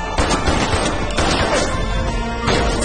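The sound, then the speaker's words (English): Gunshots fired at a training dummy during a shooting course, with a few sharp bangs standing out against loud, dense, continuous noise. “He shoots a dummy.”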